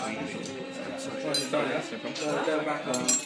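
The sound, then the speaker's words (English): Knife and fork set down: a few light metallic clinks of cutlery against a table, mostly under people talking. “So, here's your knife and fork. That would be a knife and spoon.”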